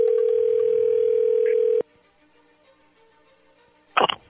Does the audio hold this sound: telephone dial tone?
yes

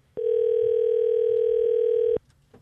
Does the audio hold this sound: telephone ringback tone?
yes

